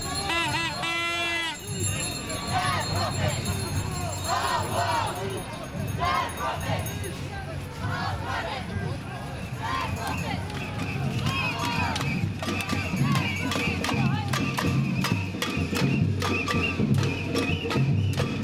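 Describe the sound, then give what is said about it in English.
Crowd of climate change protesters gathering in Grosvenor Square, London, for a march: a dense, continuous hubbub of many voices with scattered sharp knocks and clatter, staying loud throughout. “That's the sound of the Climate Change March, which is just gathering now in Grosvenor Square in London.”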